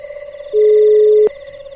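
A single steady telephone ring tone on an outgoing call, one sustained electronic note lasting under a second, loud against a quiet line with no talk.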